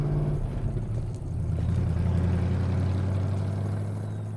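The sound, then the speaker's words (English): A truck driving off, its engine a low, steady drone that dips briefly, then swells into a stronger hum before easing slightly toward the end. “The truck drives off.”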